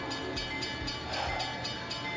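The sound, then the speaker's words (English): A train passes in a video game: a loud, steady rumbling roar with regular clacking beats throughout, and no speech over it. “Watch out for that train.”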